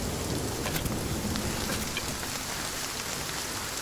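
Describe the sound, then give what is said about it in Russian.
Heavy rain pours down on an overcast day: a dense, even hiss of drops that holds steady and loud throughout, with no voices. “Пасмурный день. Льет дождь.”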